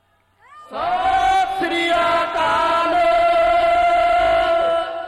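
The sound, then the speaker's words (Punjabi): A Sikh audience shouting the Jaikara cry together, a loud sustained chorus of many voices that rises after a brief quiet opening and holds strongly for about four seconds before easing slightly. “ਚੋਲਿਆਂ ਵਾਲੇ ਬੈਠੇ ਨੇ ਉਹਨਾਂ ਨੂੰ ਜੈਕਾਰਾ ਚੰਗਾ ਨਹੀਂ ਲੱਗਦਾ? ਜੇ ਗੁਰੂ ਗੋਬਿੰਦ ਸਿੰਘ ਦੇ ਜੈਕਾਰੇ ਚ ਨਹੀਂ ਬੋਲਦੇ ਕੀ ਖੁਸ਼ੀ ਲਓਗੇ ਤੁਸੀਂ?”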